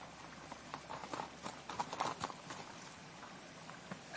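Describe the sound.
Horses' hooves clip-clopping as riders travel, a steady, fairly quiet rhythm of hoofbeats that continues throughout over a soft background wash.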